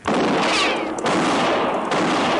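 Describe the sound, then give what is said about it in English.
Gunfire rings out in a tense Old West pursuit as a lawman fires at fleeing riders near tied horses: a loud, sustained burst of crackling shots with sharp onsets near the start and again around the midpoint, no talk over it. “I'll see about the man I shot.”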